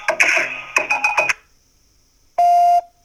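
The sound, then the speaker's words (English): A single steady, mid-pitched electronic beep from an answering machine signals the start of a message. It sounds alone after brief earlier sounds and a pause. “Thanks for calling the Brotherhood of the Silver Screen Rant Hotline. Please begin your rant after the tone.”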